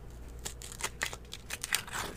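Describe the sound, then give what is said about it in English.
Crinkling and tearing as a plastic cover and a foil seal are pulled off a paper cup of sake: a few sharp, papery crackles and rips in short bursts, with no voices. “This sake is in a paper cup with a foil over the top, and then there's a plastic cover over the foil.”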